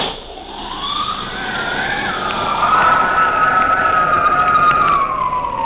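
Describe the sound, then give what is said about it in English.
A wind tunnel is switched on, and a whining tone climbs and then holds steady over a loud, continuous rush of blowing air. “And then you will turn on the wind in the tunnel and see which napkins remain on the laps.”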